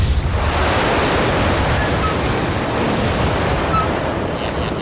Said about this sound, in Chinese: 对， 这风太大了。